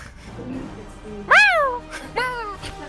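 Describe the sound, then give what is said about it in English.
A cat meows twice, clear and fairly loud, each cry rising and then falling in pitch. The first meow is longer than the second, over a faint background hum. “I'm gonna let that cat in again. He's scratching at the wall behind me.”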